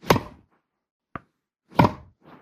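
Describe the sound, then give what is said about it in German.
A tennis racket hits a ball in a virtual reality tennis game: two sharp, loud thwacks, a tiny click between them and a softer knock at the end, with silence between. “Vor mir schwebt ein Ball und den kann ich jetzt mit diesem Tennisschläger einfach über das Netz schießen.”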